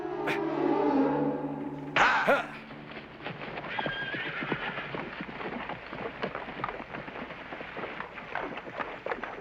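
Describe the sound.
A horse, laden with a dead body, whinnies in a long, strained call for about two seconds. Then comes a sharp burst and many quick, steady hoof clops on firm ground, fairly loud throughout.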